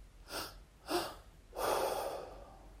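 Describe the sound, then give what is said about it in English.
Deep breathing: two short, forceful breaths through the nose, then one long, breathy exhale that trails off, all fairly soft with no talk. “Belly, chest, long exhale.”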